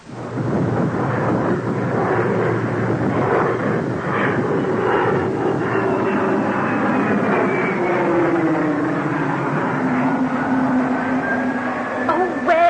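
Airplane engines running on an airport tarmac: a loud, steady roar with whining tones that lasts the whole clip, one tone drifting lower partway through.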